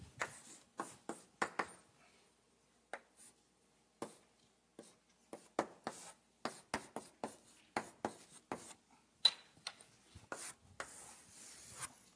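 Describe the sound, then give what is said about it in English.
Strokes of writing on a board during a lecture, many short scratchy bursts in irregular clusters separated by brief pauses, heard alone without talk. “Oh, let me write that down here, just so you know.”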